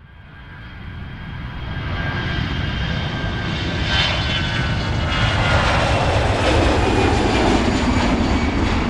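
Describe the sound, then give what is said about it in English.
Small aircraft taking off from Whiteman Airport, its engine roar swelling steadily over the first couple of seconds, then holding as a loud, continuous drone with no talk over it. “The pilot then turns around and takes off, bound for his original destination, Burbank.”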